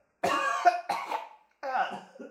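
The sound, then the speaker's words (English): Three harsh, voiced coughs in quick succession, each a rough burst with a raspy tone; the first two come close together and a short pause precedes the third. “Just cough from the other room.”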